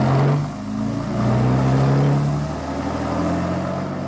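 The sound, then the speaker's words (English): A car motor runs at a low, steady hum that swells and eases as the vehicle pulls away, with no one speaking. “The fellow at the wheel didn't look round as we got in. He started the motor.”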